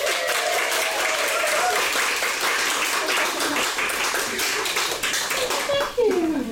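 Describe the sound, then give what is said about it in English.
Audience applause for author Jill Mansell after her introduction, a dense, steady wash of clapping sustained for several seconds, with a faint voice emerging underneath near the end. “So everyone, please give a huge hand for the incredibly talented Jill Mansell.”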